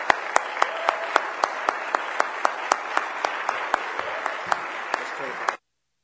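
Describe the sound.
A church audience at a National Youth Day service applauds to welcome a district youth director: steady, full clapping with a regular beat of louder accented claps, then it cuts off abruptly near the end.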